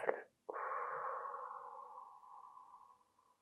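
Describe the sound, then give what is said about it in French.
Slow breathing during a sophrology exercise focused on the belly: a short, soft inhale, a brief pause, then a long, steady exhale that trails away quietly. “On y va, on inspire, et on souffle.”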